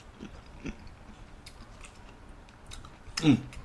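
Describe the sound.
Faint chewing of grilled eggplant topped with miso and a shiso leaf: soft mouth clicks and smacks, then a louder, crisper bite near the end.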